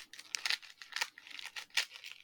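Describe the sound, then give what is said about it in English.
Wrapping paper crinkling and tearing as a present is unwrapped, heard as a string of faint, short papery rustles and rips in uneven bursts, with no talk. “So, okay, you open your present now, and I've done a traditional Trekmate move with my present.”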